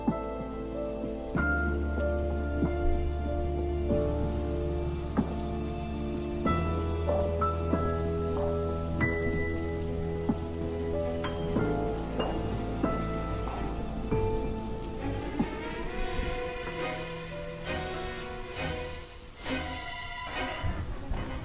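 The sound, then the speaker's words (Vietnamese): Heavy rain pours down suddenly in a steady, dense hiss that holds at an even loudness throughout, with sustained tonal notes running underneath. “Ở bên kia, cơn mưa đổ xuống đột ngột làm cho thằng Đức lại trở nên giật mình.”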